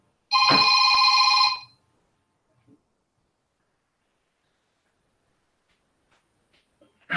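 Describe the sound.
A telephone rings on an incoming call: one loud, bright, buzzing ring lasting just over a second. Near silence follows, with a few faint soft knocks.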